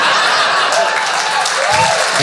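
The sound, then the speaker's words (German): Audience applause fills the whole stretch as a dense, steady wash of clapping, with a faint voice briefly rising near the end. “Das mit dem einfachen Applaus kann ich auch.”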